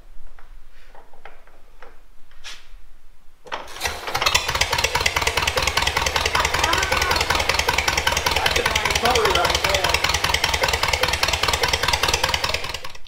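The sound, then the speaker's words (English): A hand-cranked engine is heard after a few seconds of quiet talk. It catches and settles into a loud, steady run with rapid, even ticking beats throughout. “Now, let's see if it'll hand crank.”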